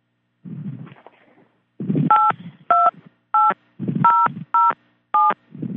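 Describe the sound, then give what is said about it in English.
Telephone keypad tones key in a PIN on a conference call line. A quick series of short, clean beeps alternates with brief bursts of low, rough line noise. “Please enter your PIN followed by pound.”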